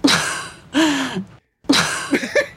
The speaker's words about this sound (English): That's an exhale.